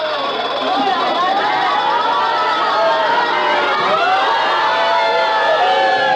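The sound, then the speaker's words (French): A game show studio audience reacts with a dense, loud clamor of many voices, a steady mix of chatter and cheering that holds without a break throughout. “Vous avez entendu le public, vous avez deviné que bien entendu, il avait encore fait le score de...”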